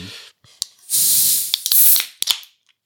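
A beer can is opened with a hiss: a few sharp clicks, then a loud, steady airy spray of gas lasting about a second, followed by more short clicks before it falls quiet.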